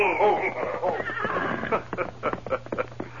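Horses neigh as riders approach. A loud whinny with a wavering, shaking pitch gives way to a quick run of hoof clops in an uneven rhythm.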